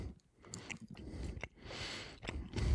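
Quiet, moist chewing and soft crunching as someone eats a piece of cheese at a tasting, with irregular small bites and squishy mouth sounds.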